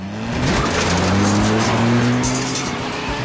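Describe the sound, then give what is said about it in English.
A car reverses and speeds off up a narrow alley in pursuit, its engine revving loudly with tires squealing. The engine pitch climbs in steps as it accelerates away. “He reverses back and heads off up the alley in pursuit.”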